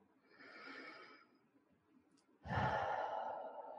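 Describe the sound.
Deep breaths during a guided relaxation exercise: two slow, airy breaths, the first softer and the second louder and sighing, with no talking.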